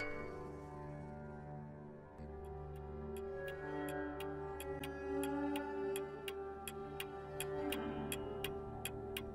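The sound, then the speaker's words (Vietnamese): A clock ticks steadily in a bedroom near midnight, many even, sharp ticks beginning a few seconds in and continuing to the end over a low, sustained musical drone. “Kim đồng hồ chưa qua tích tắc”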